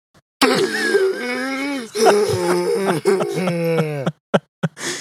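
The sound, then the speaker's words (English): A human voice imitates the breathing of a captive alien creature kept in a zoo: three long, strained, groaning breaths with wavering pitch, then a few short, sharp gasps at the end. “The Black Lagoon monster was kept in a zoo to this day, where it squirmed and fought against its captivity. And when it breathed, it made a sound like this.”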